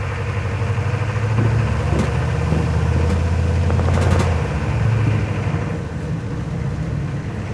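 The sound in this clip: Car engine drones steadily as the vehicle drives across a road under threat of ISIS fire, a low, even rumble that holds for the whole stretch with no talking.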